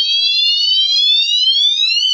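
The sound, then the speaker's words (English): A piercing electronic alarm tone from a speaker rated at 160 decibels, a loud, steady, harmonic-rich whine that creeps slowly upward in pitch before dipping sharply at the very end. “That speaker is supposed to be 160 decibels. Should we try it? Go for it.”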